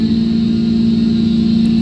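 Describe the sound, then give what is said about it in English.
Engine sound from a motor held at a steady pitch, a loud, constant drone with a strong low hum and no clear rise or fall. “That's what I'm talking about right there. Is that revving of the engine.”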